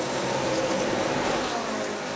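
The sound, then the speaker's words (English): NASCAR race cars roaring at the Brickyard 400, a loud, dense, steady engine drone with no break. “a race with a little more horsepower got cranking on this side of the Atlantic.”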